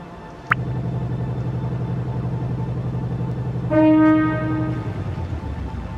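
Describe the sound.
A train horn blows in a train driving video game. One sustained, tonal blast of about a second sits over a steady low engine rumble, after a brief high chirp near the start.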